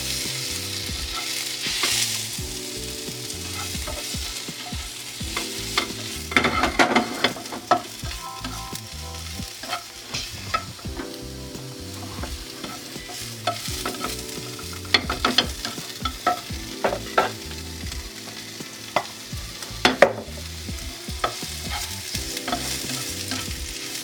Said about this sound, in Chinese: 爆香的差不多呢，我们就把香菇也一起下去。